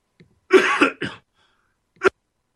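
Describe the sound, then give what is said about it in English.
A man coughs: a rough, throaty burst followed quickly by a shorter one, then a single sharp cough after a brief pause, with no speech between. “let me cough here”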